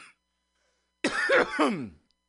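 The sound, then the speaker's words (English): A single harsh cough: an abrupt rough burst that turns into a voiced, rasping tail. It is fairly loud, stands alone with no talk around it, and is followed by silence. “That's rude of me to cough right at you guys.”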